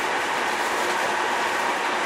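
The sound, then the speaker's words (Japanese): Steady rumble of a passenger train running on rails, a temporary special service: an even, continuous wash of broad rolling noise with no distinct clacks, squeals or voices. “この列車は臨時列車のスターライト上野号上野行きです。”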